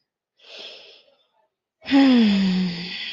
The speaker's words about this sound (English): I'm going to take another deep breath here.